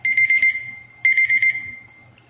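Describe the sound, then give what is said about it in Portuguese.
A kitchen timer alarm rings in two bursts of rapid, high-pitched beeps. The second burst trails off into a fading tone. “Onde eu estava aqui? Antes desse relógio me atrapalhar. Ah, não, é temporizador.”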